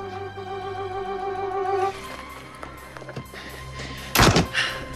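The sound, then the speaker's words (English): A door is opened by a man entering a room with a gun drawn: a few faint clicks, then one heavy, loud thunk, after a sustained tonal drone fades out. “Opens the door and walks inside, gun pointed.”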